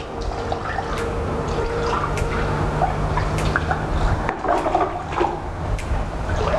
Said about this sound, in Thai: ขั้นตอนสุดท้ายให้นักเรียนนะครับใช้น้ำฉีดหรืออาจจะน้ำราดแบบนี้นะครับให้สะอาดเลยครับ